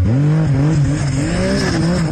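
A vehicle engine runs at the start of a tour on icy Svalbard, a loud, steady low drone whose pitch wavers and dips a few times as it revs.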